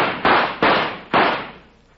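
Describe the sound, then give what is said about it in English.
Gunshots fired at a rattlesnake: a quick series of sharp, loud reports, each a sudden crack with a broad, noisy tail that decays before the next, the last one fading away toward the end. “you hit him with all four shots.”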